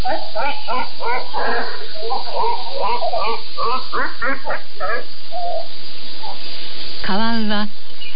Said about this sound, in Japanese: 夜明け前の湖から奇妙な鳴き声が聞こえてきました。カワウの声です。